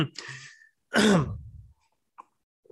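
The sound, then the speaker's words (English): One loud, rough cough with a throat-clearing rasp, preceded by a softer breathy sound and followed by near silence. “And excuse me, now I'm coughing.”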